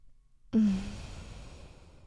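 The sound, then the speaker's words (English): A single deep breath, let out as a sigh-like exhale, starts abruptly out of near silence and then trails off softly. “Take a deep breath.”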